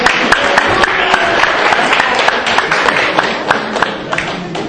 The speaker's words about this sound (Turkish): Üç grubumuzu da çılgın bir şekilde alkışlıyoruz.